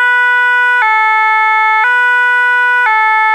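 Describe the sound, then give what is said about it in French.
A French ambulance siren blares loud and continuous, switching back and forth between two pitches about once a second in an even two-tone cycle. “Exemple, ça, c'est le bruit d'une ambulance française.”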